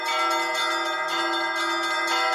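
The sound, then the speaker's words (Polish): Church bells ringing in a belfry during Easter, when anyone may climb up and ring them: a loud, dense metallic clang with rich sustained overtones, fresh strikes overlapping throughout with no voices. “Wielkanoc to też jest taki czas, że każdy może wejść na tą dzwonnicę, podzwonić tymi dzwonami i nikt się nie gniewa”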